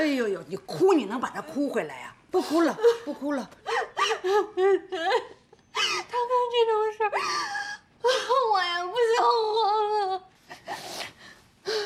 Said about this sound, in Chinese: 别哭了啊！哎呦呦，你哭你能把他哭回来呀？不哭了，不哭了。